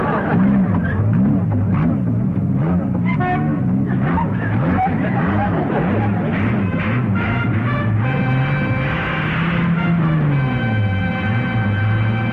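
A car with a rebuilt motor runs with a loud, steady engine drone whose low pitch wavers up and down throughout, and a few brief higher tones rise above it near the end.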